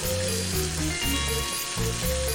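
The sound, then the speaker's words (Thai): Lobster deep-frying in hot oil so the head cooks through, a steady, loud crackling sizzle throughout, with music playing underneath. “อันนี้กุ้งมังกรครับทอดชาน้ำมันให้ตัวหัวมันสุกครับ”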